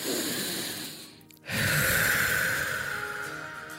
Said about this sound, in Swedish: Att vi bara så tar tre djupa andetag.